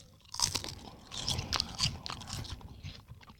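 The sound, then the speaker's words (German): Crisp, brittle crunches come from someone biting into thin, crispy dried fish snacks. Several faint bites and chews crackle in short bursts with soft scraping between them. “Okay, es ist nicht so, es ist natürlich auch so knusprig, aber es sind deutlich dünner. Und es schmeckt voll nach Fisch.”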